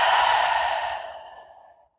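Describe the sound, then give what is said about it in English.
A deep breath out during a guided breathing exercise: one long, breathy exhale that starts full and fades slowly to silence over about two seconds. “Take a deep breath in. Inhale. Exhale.”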